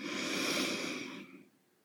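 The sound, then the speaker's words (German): One slow, airy inhale through the nose during a guided relaxation breathing exercise. It is soft and steady, then fades out over its last half second. “Und dann lässt du nochmal alles los, indem du einatmest über die Nase”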